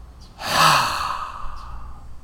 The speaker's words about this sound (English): Inhale all the good stuff. Exhale all the bad stuff.